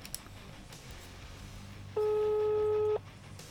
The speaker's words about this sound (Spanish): Está marcando.